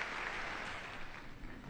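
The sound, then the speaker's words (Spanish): Welcoming applause for the Pope at UNESCO, a dense, steady wash of many hands clapping together. It stays loud and even throughout, with no voices standing out. “Santo Padre, claramente emocionado, acoge el saludo de todos los miembros de esta organización, que aplausos de acogida al Santo Padre por esta visita.”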